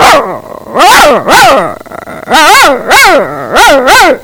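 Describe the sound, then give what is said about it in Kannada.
A person imitates a dog barking at a stranger, making a series of loud, harsh bark-like yelps with arching pitch in an uneven rhythm, with no other talk. “ನಾಯಿ ಯಾರಾದರೂ ಅಪರಿಚಿತರು ಬಂದಾಗ ತನ್ನ ಮಾಲೀಕನಿಗೆ ಯಾವ ತರ ಬೊಗಳುತ್ತದೆ ಎಂದು ತೋರಿಸುತ್ತೇನೆ.”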